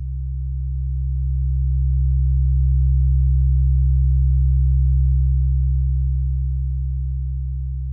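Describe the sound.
A steady low-frequency test tone, a pure bass hum played to show how low sound behaves in a room, holds at one unchanging pitch for the whole stretch, swelling slightly louder through the middle and easing off toward the end.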